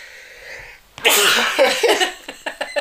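A long held-back sneeze bursting out: a faint strained breath builds for about a second, then a loud explosive burst, followed by a string of short, sharp sputtering bursts.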